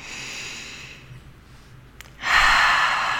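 Slow breathing in and out during a guided meditation practice: soft, airy breath noise, then a louder, fuller breath near the end.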